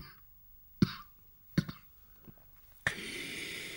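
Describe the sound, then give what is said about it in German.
A man coughing in a harsh fit while gasping for air: two sharp, loud coughs spaced apart, then a rough, sustained rasping noise. “Er rang nach Luft, dann folgte ein heftiger Hustenanfall, der aber keine Erleichterung brachte.”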